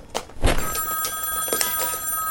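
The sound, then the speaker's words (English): A telephone bell rings steadily and continuously throughout, with a bright, sustained metallic tone. “The phone.”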